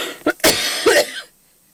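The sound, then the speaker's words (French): A person coughing, a few sharp harsh bursts in quick succession that trail off into silence, loud and alone without speech. “Excusez-moi, j'ai une petite quinte de toux.”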